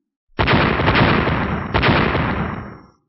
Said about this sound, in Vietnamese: Một tiếng vang thật lớn, không trung bộc phát ra một tiếng oanh minh kịch liệt